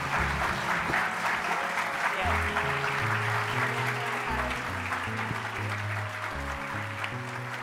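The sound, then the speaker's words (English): Standing ovation from an audience as student activists from Marjory Stoneman Douglas High School leave the stage: loud, dense, sustained applause at a constant level, with low musical notes playing beneath. “I know you couldn't see it, but the audience gave a standing ovation as these young leaders walked off stage.”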